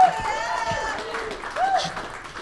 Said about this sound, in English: How about a hand for Mick?